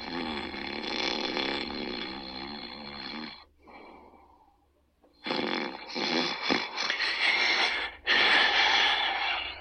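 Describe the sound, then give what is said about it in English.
An old woman snoring while asleep in a chair: loud, rasping, drawn-out snores in long stretches, broken by a brief quieter pause midway before the heavy snoring resumes. “The clerk, an old lady in a maxi, was fast asleep on her chair, her lips quivering and nostrils flaring as she snored.”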